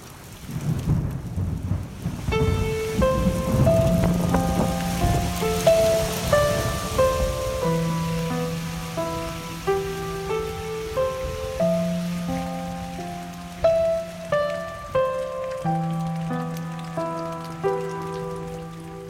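Steady rain patters down with deep rumbles of thunder. After a couple of seconds, sustained melodic tones begin and carry on over the downpour.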